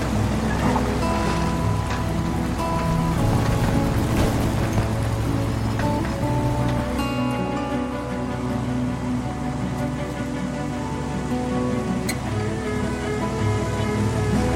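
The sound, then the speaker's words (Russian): Motor of a motorized hang glider running on water, a buzzing engine with shifting tonal harmonics over a wash of water noise, its character changing partway through. “Кристиан заводит мотор мото-дельтаплана.”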